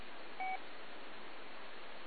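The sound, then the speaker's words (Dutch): A loud beep signal on a radio channel: one short, steady electronic tone cuts in briefly over continuous hiss, then only the noise remains. “Gaat het over het piepje? Nou, piepje. Een loei van een signaal.”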